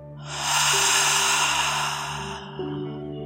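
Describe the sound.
A deep breath drawn in through the nose and let out through the mouth. One long, breathy rush of air runs for about two seconds over soft, steady musical tones, then eases off.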